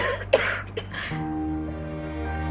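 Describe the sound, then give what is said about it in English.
A woman coughing in a dramatic scene: two short, rough bursts, the second weaker, followed by a steady low tonal hum. “quivers as she coughs”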